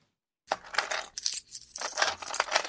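Coins dropping during a cash payment: after a moment of silence, a busy metallic jingle and clinking of coins spills and settles for about two seconds.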